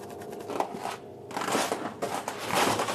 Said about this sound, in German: Also, wir schneiden hier ab.